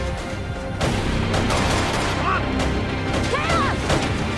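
Gunfire exchanged with guards at the edge of a forest in an action scene, with a few sharp shots cutting through a dense, loud, continuous bed of noise.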